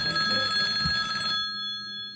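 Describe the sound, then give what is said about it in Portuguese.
A telephone rings with one bright, steady electronic trill lasting just over a second, then cuts off, leaving only a faint lingering tone. “Vamos pro telefone, vamos ver quem tá na linha.”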